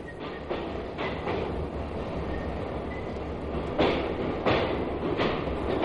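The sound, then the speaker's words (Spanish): A train rolls along its rails, heard from inside a passenger compartment: a steady, loud rumbling roar with a few brighter clattering surges from the wheels, and no voices. “Y ahora viaja en un compartimiento del tren del norte”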